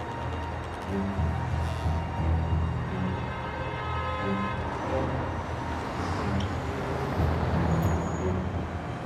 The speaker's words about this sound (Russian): Вечерний город, поток машин.